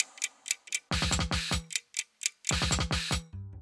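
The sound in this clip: Clock ticking opens a Persian song, a few steady crisp ticks at a regular pace before deep musical hits and percussion come in and carry the ticking rhythm forward.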